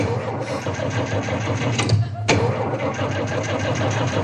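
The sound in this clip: A car engine churns with a steady, even mechanical drone throughout, with a single brief sharp click partway through.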